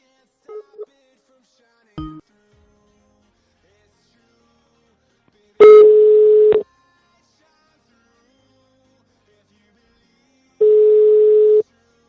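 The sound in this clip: Telephone tones after dialing a number to reach a debt collector: a few short beeps, then two steady ringback tones of about a second each, separated by a long silence.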